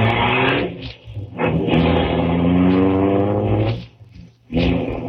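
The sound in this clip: A car engine drones loudly as a learner driver drives a little too fast. The sound is a mid-pitched hum with strong tonal harmonics that briefly dips in level a few times.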